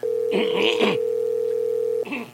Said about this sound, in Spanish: Señor gerente, buenos días. Atiende, no puede. Coge el teléfono. ¿Cuál es el temor de no querernos atender?